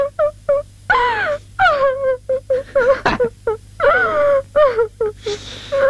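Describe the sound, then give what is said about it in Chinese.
A person cries and wails in many short, high, wavering voiced bursts separated by brief pauses. The crying is loud and continuous, with no talk over it. “我知道你心里不好受。不哭，咱不哭啊。”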